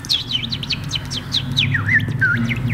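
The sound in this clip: A person imitates bird chirps: many quick, high chirps and short sweeping tweets in a fast, uneven series over a steady low background hum.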